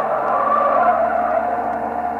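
Tyres skid and screech as a speeding car with no brakes races on, a loud, sustained squeal over a steady engine roar through the whole short stretch.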